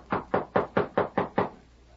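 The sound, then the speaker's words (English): Knocking on a house door: six firm, evenly spaced knocks in a steady rhythm, then quiet. “Knock on the door again.”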